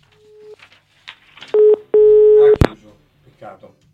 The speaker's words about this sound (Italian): C'è una chiamata, sì, sì. Ah no, sì, eccola.